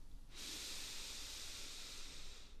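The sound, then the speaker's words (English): A long, steady inhale through the nose gives a soft breathy hiss that lasts about two seconds, faint and alone without talk. “We're going to take an inhale through our nose.”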